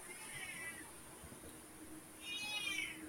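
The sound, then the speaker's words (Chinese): A pet cat at home meows twice, once early and once near the end, with a short quiet gap between. Both calls are faint and drawn out, the second one longer and stronger. “开始 了， 猫儿子的呼唤。”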